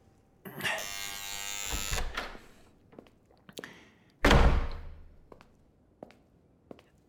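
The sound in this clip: A door buzzer sounds with one harsh, steady electric buzz lasting over a second, followed by scattered soft knocks and a single heavy thump, with no voices.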